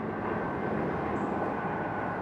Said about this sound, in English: You can actually watch the planes take off from across the bay.